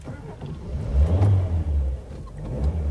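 A taxi engine rumbles and revs as the car pulls away to follow another car, a low, steady drone that swells in loudness.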